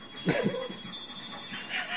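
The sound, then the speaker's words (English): A dog whimpers in a few short, high-pitched whines and yips, fairly loud and strained, spread over about two seconds. “He's just a dog”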